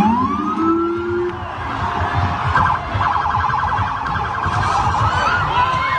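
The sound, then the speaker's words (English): A New York police SUV's siren wails and yelps during a street protest in Brooklyn, the rising and warbling tones cutting through steady, dense crowd noise. “That was the sound as an NYPD SUV apparently rammed into a group of protesters in Brooklyn last night.”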